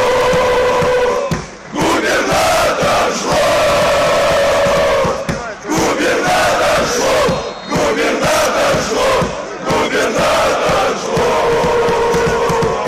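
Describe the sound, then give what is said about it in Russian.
Massed football fans chanting at a televised stadium match, a loud, continuous roar of voices shouting in rhythmic repeated phrases with brief dips between them. “На ближайшем матче «Зенита» с прямой телетрансляцией болельщики спели, чтобы слышали все, и Полтавченко, и вся Россия.”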